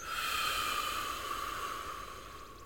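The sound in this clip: One long, steady exhale of breath, a soft, breathy hiss that slowly fades over a few seconds and is heard alone.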